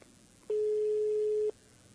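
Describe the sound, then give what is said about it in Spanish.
A telephone tone after a dropped call: one steady mid-pitched beep lasting about a second, over faint line hiss, with no voices. “Se cortó la comunicación, pero enseguida vamos a restablecerla.”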